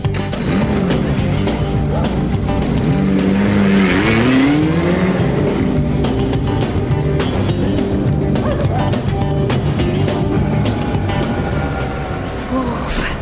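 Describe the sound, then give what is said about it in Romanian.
A car engine roars as the car drives off, loud and continuous throughout, with a clear upward sweep in engine pitch early on that settles into steady driving noise. “E nebun, să fugim pe noi. Hai! Pornește mașina!”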